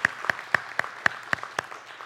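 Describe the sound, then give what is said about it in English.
A church audience claps hands together in unison, giving a steady, evenly spaced series of sharp claps with fainter scattered claps between them and no talk over them. “Come on, let's give the Lord a hand clap.”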